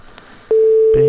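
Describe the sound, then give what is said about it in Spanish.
A ringback tone sounds on an unanswered telephone call during a Spanish radio show. A single steady mid-pitched tone starts loud after a short, faint, noisy lead-in and holds to the end. “Y resulta que José Mariano ahora no nos coge el teléfono.”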